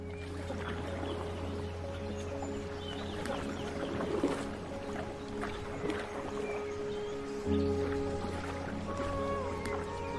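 A canoe is paddled in a PlayStation VR 2 paddling game: soft water splashes and paddle strokes sound faintly over a steady low hum, with a few slightly stronger splashes scattered through.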